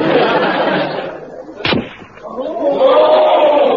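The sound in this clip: A single rifle shot fired at a target on a shooting range gives a sharp, loud crack midway, set among background voices and other sounds.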